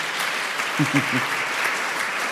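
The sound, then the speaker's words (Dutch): Steady applause from a live audience at a talk on art exhibitions: a continuous wash of clapping throughout, with a brief low voice murmuring underneath near the middle. “geef die mensen dus een applaus”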